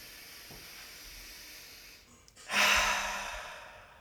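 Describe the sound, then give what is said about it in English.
A deep breath during a guided breathing exercise, drawn in through the nose and out through the mouth: a quiet stretch, then a sudden loud, airy rush of exhaled breath that fades over about a second and a half. “let's take a collective deep breath in through the nose, out through the mouth. One more time, inhale.”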